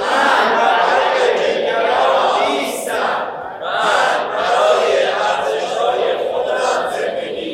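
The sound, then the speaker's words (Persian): An audience at a live talk applauds and cheers, a loud, continuous roar of yelling voices with steady rhythmic clapping beneath it that swells and dips briefly before surging again. “مرسی. خودتون تشویق کنین.”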